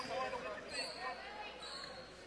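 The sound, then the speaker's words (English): A basketball is dribbled at the free throw line during a girls' high school quarter-final game, a few faint bounces under crowd noise and a commentator talking. “gets the ball, dribbles twice, spins.”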